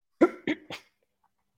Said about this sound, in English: I'm sorry for coughing right before that.